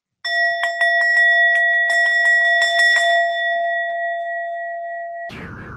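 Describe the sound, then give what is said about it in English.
A singing bowl rung once, giving a clear, sustained metallic tone with bright overtones. Light rapid taps or clicks run through the first few seconds, and the ring decays slowly before a brief burst of noise at the very end. “I'm going to ring my singing bowl and just give you the opportunity wherever you are.”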